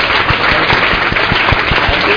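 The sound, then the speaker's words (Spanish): Live studio audience gives an ovation, dense applause with a steady, rhythmic pulse of claps, loud and continuous throughout. “Un aplauso, una ovación cerrada del público que está presente hoy en Planeta Duna en directo para Paco Nájera.”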